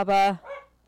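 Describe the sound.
A small dog reacting to a noise in the hallway gives a short, high-pitched yelping bark. A few words are spoken briefly.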